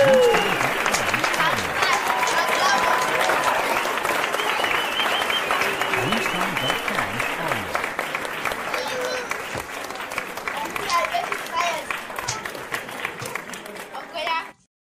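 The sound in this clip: An audience applauds with dense, continuous clapping for about fourteen seconds, loud and steady before cutting off abruptly at the end.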